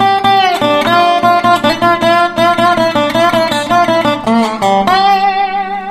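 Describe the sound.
A short slide guitar lick of choppy staccato notes mixed with the open string, played alone. Quick clipped notes shift in pitch before the phrase settles into a sustained, ringing final note.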